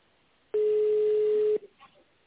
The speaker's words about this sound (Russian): наберите в тоновом режиме цифру 1, либо введите внутренний номер сотрудника.